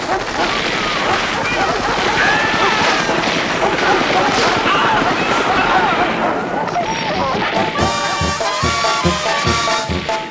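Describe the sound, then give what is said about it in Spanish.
A helicopter's loud, continuous rotor drone fills a police raid on drug traffickers while voices shout over it. Near the end a rhythmic pounding beat cuts in beneath the noise. “Un helicóptero se oye gritando por la bocina.”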